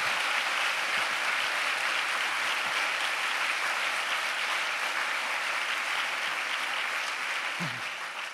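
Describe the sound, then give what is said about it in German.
Sustained applause from an audience at a speech, a dense, steady crackle of many hands clapping that holds an even, fairly loud level for about eight seconds before easing slightly at the very end. “Applaus”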